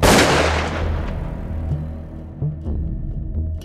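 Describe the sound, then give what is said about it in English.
A Winchester shotgun fires one loud blast, a sharp crack that decays into a long rumbling tail, followed by a few faint scattered knocks. “So Harry lifts the giant Winchester shotgun to his shoulder and...”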